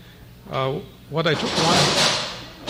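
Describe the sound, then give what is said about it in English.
Chairs fall down with a noisy clatter lasting over a second, following two short bursts of a voice. “Those are the chairs just falling down.”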